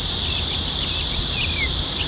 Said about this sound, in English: This is the sound of wildlife on Yongsung. And to the untrained ear, it may be difficult to pick up on the sounds of anything other than cicada bugs.